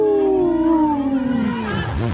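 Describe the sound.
A wolf howl: one long, loud, tonal call that slides steadily downward in pitch, rich in harmonics, heard alone with no voices over it.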